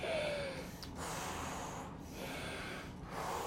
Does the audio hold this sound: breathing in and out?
yes